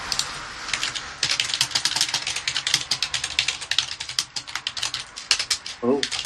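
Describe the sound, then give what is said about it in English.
Rapid typing on a computer keyboard: many quick, crisp keystrokes in a dense, uneven stream that runs almost without pause, with a brief voice at the very end. “Oh, I'll keep typing.”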